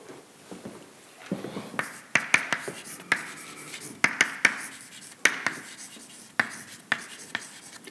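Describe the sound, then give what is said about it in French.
Equations being written by hand: many short, scratchy strokes and sharp taps in an irregular rhythm, fairly faint, with no voices. “Je vais écrire deux types d'équations.”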